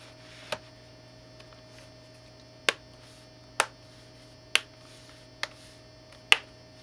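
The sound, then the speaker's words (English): Plastic screw clips on a front bezel snapping into place, several sharp, crisp pops spaced a second or so apart, each separate and clear over a faint steady hum. “four simple, simple little clips along the front. There's five. One, two, three, four, and then five. As you heard, they pop back into place.”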